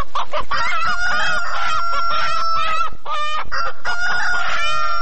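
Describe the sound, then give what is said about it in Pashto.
Village hens kept for selling eggs cluck busily while a rooster crows among them, giving many loud, choppy calls and longer harmonic cries in steady succession with no talking. “له دوی سره د چرګانو مرسته شوې ده”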